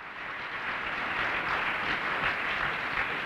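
A studio audience applauds with dense, even clapping that holds at a steady level for the whole stretch. No voices are heard.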